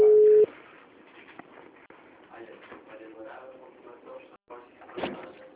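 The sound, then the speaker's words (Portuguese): A telephone emits a single steady electronic beep of a busy tone after a dropped call, loud and brief, followed by a quieter stretch of low rustling background noise. “a ligação caiu”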